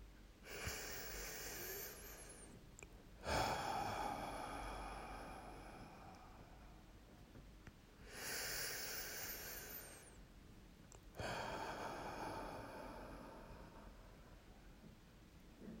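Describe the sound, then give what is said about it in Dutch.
Slow deep breathing paced four counts in and six counts out in a guided relaxation exercise: soft, hissy inhales alternating with longer exhales over a couple of unhurried cycles, quiet throughout. “Voorafgaand aan deze visualisatie nodig ik je uit om een aantal keren diep te ademen. Dat wil zeggen, adem 4 tellen in en 6 tellen uit.”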